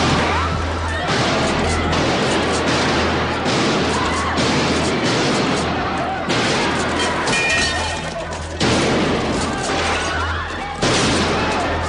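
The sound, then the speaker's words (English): Shotgun gunfire erupts in a film scene as a man in sunglasses shoots up a bank full of aliens: several loud, sharp blasts break through a dense, continuous wash of crashing noise. “He says that as he walks into a bank wearing sunglasses and a shotgun, and then starts shooting the place up”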